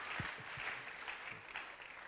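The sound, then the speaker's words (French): Faint audience applause for women at a spiritual revival church gathering, a continuous soft wash of many hands clapping with a few low vocal sounds mixed in. “Everybody clap on for women, oh. Que tout le monde acclame pour les femmes.”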